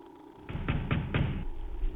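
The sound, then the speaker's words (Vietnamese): Rapid, heavy knocking on a door: several loud thuds in quick succession, with a low rumble running beneath them. “Sau một khoảng thời gian chờ đợi ngắn ngủi, tiếng đập cửa dồn dập vang lên.”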